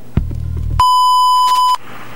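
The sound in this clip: An answering machine responds to its Message button: a brief low buzzing rattle of the press, then a single steady electronic beep lasting about a second before cutting off into faint background hiss.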